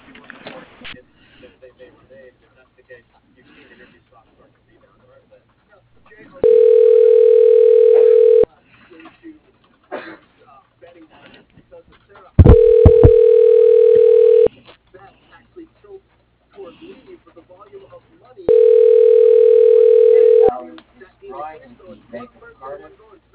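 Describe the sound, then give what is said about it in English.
Telephone ringback tones as an office call is put through to a voicemail box: three long, steady, evenly spaced tones, each lasting about two seconds, with faint talk heard between them. “I can put you through to his voicemail.”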